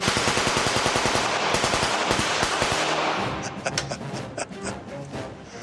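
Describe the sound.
Four mounted machine guns on a military weapons carrier fire a loud, rapid, continuous rattle of automatic rounds, then thin into sharper, more spaced cracks toward the end.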